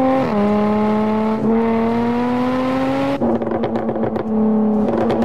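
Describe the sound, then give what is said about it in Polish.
A car engine revs with crackling exhaust pops during throttle blips at about 40 km/h. A steady droning engine note climbs slowly, then breaks into a burst of rapid, sharp pops before the note returns. “dźwięk tego samochodu jest po prostu obłędny. To rozkosz dla uszu. Mogłem całe popołudnie jeździć 40 na godzinę i słuchać strzałów z rury wydechowej przy przegazowaniach.”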